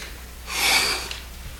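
A person imitates a weightlifter exerting with a single forceful, breathy exhale, a soft hissing rush of air that swells and fades within about half a second.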